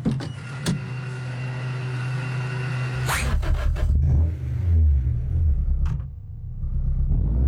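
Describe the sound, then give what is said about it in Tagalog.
A car engine in a fuel commercial, first a steady high whine over a low rumble for about three seconds, then a sudden burst into a rougher, louder low rumble that swells and dips. No one speaks. “Paspas, kusog, o walay problema akong sakyanan.”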